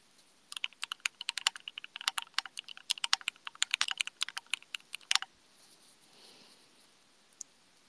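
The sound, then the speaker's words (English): Typing on a computer keyboard makes a quick, irregular run of light clicks for several seconds, then stops, leaving near silence with a couple of faint taps. “Typing.”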